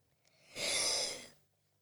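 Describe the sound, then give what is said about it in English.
One soft, airy breath drawn by a speaker, swelling and fading within about a second, alone and without talk. “I need to take a breath here.”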